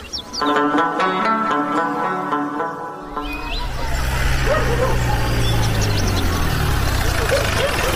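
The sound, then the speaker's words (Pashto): A car engine rumbles as the vehicle arrives, a low, growing drone that starts about midway and continues steadily. Before it, people talk. “د موټر غږ شو”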